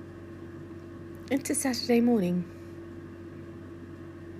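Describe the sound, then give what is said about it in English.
Steady, low hum of an air fryer cooking meatballs, running continuously beneath a brief stretch of a person talking. “We have meatballs, or at least meatballs are in progress. That's the sound of the air fryer in the background.”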